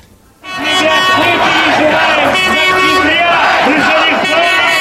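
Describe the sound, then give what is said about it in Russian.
Stadium crowd atmosphere bursting in after a brief moment of quiet: a loud, dense roar of many voices with chant-like rising and falling shouts, sustained until the end. “прежде дайте нам, пожалуйста, звуковую отбивку для того, чтобы мы вернулись в атмосферу стадиона”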